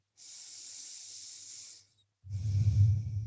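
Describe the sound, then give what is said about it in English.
Two slow breaths during a yoga class. A long, airy hiss lasts well over a second, then after a short pause comes a louder, rougher breath with a deeper rumble. “Pausing for breath.”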